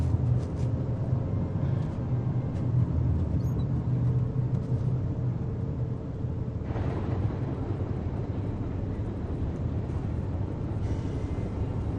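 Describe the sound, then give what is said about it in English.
Steady road noise from a car driving through city neighborhoods, a continuous low rumble with a brighter hiss rising partway through; no one speaks. “She climbs into the driver's seat and he gets in beside her. They drive through city neighborhoods in tense silence.”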